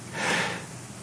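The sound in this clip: A voice imitating a dying father's breathing: a single soft, airy breath that swells and then trails off into a faint hiss.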